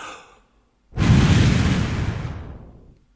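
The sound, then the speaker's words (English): A long breath blown straight into a microphone makes a loud, breathy rushing whoosh lasting about two seconds and slowly fading. A softer, brief breath comes just before it, followed by a moment of silence. “I'm going to blow through the microphone and see what you can feel just on your nose and your face.”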